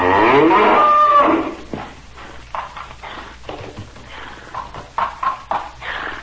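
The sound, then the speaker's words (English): A bull fighting a smaller bull gives a loud, long, harmonic bellow. It is followed by a run of quieter, irregular grunting and scuffling sounds. “See, our great bull forces the other to his knees. The smaller bull has no chance. He should have run away instead of choosing to fight. Look, Father, the small bull is down.”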